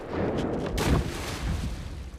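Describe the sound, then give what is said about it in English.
Gunfire from hunters shooting rifles and a shotgun near a riverside house: a sharp, loud crack stands out over a dense, rumbling wash of noise, with a few lesser bangs around it. “Tom reloads his rifle as the hunters fire at Mudd.”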